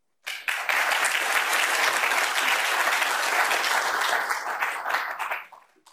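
An audience bursts into sustained applause to welcome a visiting professor to a lecture at NYU Abu Dhabi. The dense clapping starts abruptly, holds steady and loud for about five seconds, then tapers off.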